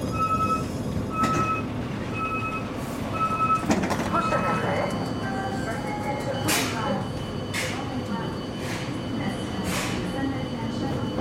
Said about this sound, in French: me voilà dans un train pour saint etienne